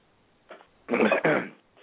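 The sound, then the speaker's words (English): Coughing from a person with a runny nose: a small preliminary burst, then two loud, harsh coughs in quick succession. “You are coughing a lot today.”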